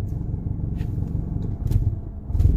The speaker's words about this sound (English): sorry guys, I'm in my car. Alright. Car is idling funny.